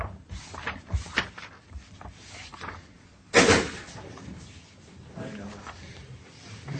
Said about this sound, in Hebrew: מה נפל? כיסא? כיסא נפל. נשבר.